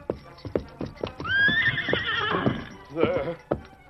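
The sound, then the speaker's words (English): A white stallion whinnies in a long, shrill neigh that falls in pitch, then gives a shorter second call, with hoof clip-clops and low thuds sounding before it. “As the white stallion saw his master in pain, he became more determined to stand by him. For once he would not, could not obey the man he loved.”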